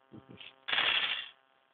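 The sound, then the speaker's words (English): Six dice being rolled: a couple of soft knocks come first, then a short burst of dense, clattering rattle that lasts about half a second before dying away, quiet overall and with no talking. “I've rolled 6 dice for people playing at home.”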